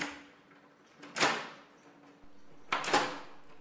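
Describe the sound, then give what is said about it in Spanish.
A house front door being opened, reached after a muddy path. Two brief, faint, noisy bursts of rattle and scrape are separated by quieter moments over a low background hum. “justo al abrir la puerta”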